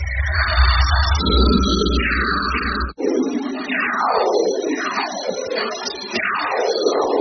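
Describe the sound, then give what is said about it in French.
Solar radio bursts from the Sun turned into audio: a buzzy low drone with a high warble, then after a sharp break a string of loud, whooshing sweeps, each gliding downward in pitch. “ce qu'on vient d'entendre, c'est en fait une transcription audio de ce qu'on appelle des sursauts radio de notre étoile”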